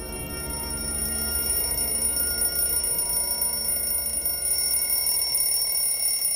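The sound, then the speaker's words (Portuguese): An alarm clock rings steadily for about six seconds, a continuous, shrill, high-pitched ringing at even loudness with no voices. “cadê esse despertador? Cara, eu não tô vendo nada. Ai, mano, alguém desliga isso daí.”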